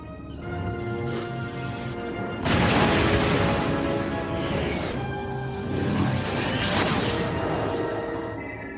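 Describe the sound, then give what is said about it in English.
A spaceship runabout explodes in a broad, rushing crash over a sustained humming, tonal backdrop, with a later swelling whoosh as an energy pulse disrupts a transporter beam-in. “The away team has just started to beam in when the runabout explodes and some sort of energy pulse interrupts the beam-in process.”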